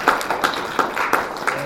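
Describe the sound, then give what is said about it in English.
Applause at the end of an evening talk session, with steady, evenly spaced clap accents over a continuous bed of clapping that holds at a moderate level throughout. “I want to give a little round of applause.”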